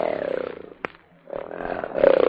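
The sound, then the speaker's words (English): A lion roars in two rough, drawn-out bursts, falling in pitch and split by a short gap with a sharp click. “And thus roared the lion, We want Daniel.”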